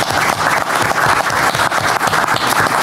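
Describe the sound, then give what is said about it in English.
An audience at a public board meeting breaks into applause, a dense, continuous wash of many hands clapping that stays loud and steady throughout. “Well, I think that's worth a round of applause.”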